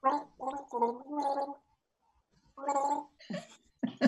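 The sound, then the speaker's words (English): A person gargles water while trying to carry a tune as a song clue in a quiz game: a few bursts of pitched, bubbly gurgling notes, a pause of silence, then several more gargled phrases. “The melody in my head isn't coming out of my gargle.”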